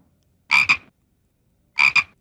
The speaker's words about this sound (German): den feiernden Frosch, den quakenden Quassler